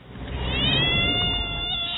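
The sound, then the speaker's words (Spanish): A cat meowing in one long, drawn-out, fairly loud cry that holds a high, wavering tone and carries on with no talk over it. “¡No! ¡Ojo con el gato!”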